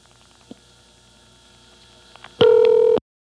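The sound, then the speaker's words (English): Telephone vacant-level intercept tones: a loud, steady electronic tone burst of about half a second comes near the end, after a quiet stretch of line hiss with faint clicks. “At long last, we hear the vacant level recording.”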